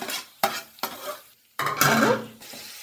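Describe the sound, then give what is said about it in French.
Onions sizzle as they are stirred in a pan where pork was first browned, a steady hiss broken by several sharp utensil knocks against the pan. “Après, j'ai mis les oignons.”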